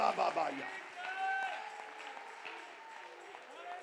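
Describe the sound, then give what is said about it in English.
An audience claps along during a church worship service, a steady patter of hands blended with sustained voices and music. “Come on, lift your voice. Clap your hands.”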